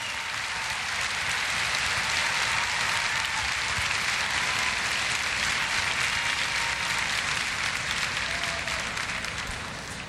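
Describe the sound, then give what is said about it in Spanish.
An audience gives sustained applause to musicians being honoured at a tribute event. The clapping is dense and even, holds at a steady level for about ten seconds, and tapers off slightly at the close. “Recibamos un fuerte aplauso”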